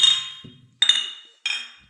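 Beer glasses clink three times in a toast. Each strike is a bright, high ring that fades quickly before the next one, and faint murmurs can be heard in between.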